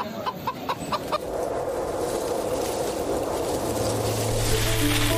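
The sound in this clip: Chickens and a rooster cluck in a busy morning market where four-year-old roosters are sold. A few short clucks come first, then a steady, dense bustle of noise takes over.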